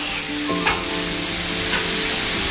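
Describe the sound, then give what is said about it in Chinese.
Stir-frying bean sprouts, red peppers and firm tofu in hot oil over a stove: a loud, steady sizzle with scraping stir strokes and a couple of sharper clanks, with no talk. “烧灶热油，配菜一股脑倒入，翻炒全凭经验。”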